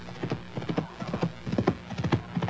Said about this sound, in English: Can't you hear them? There they are again. What is it, Beth? The hoofbeats. This time they're coming straight for the house.